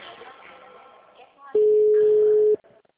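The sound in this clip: A telephone ringback tone sounds while a call is being placed: a single steady, loud, mid-pitched tone lasting about a second. It follows a short stretch of voice and ends abruptly.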